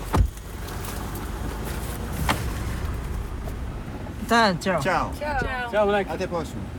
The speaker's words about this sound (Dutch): We rijden nog dieper het land in